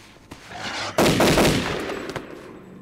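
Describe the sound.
Rifle gunshots: a loud, sharp blast with a long rumbling tail, plus a few fainter cracks before and after it.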